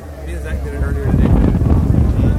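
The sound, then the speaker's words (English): Wind buffets a microphone in a low, rumbling roar that grows louder and more turbulent partway through. A brief voice-like tone sounds at the start. “Damn, it's windy.”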